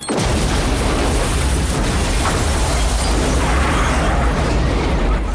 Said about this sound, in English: The front seat of the car explodes into the air, Bill's burning body still strapped in by his seatbelt.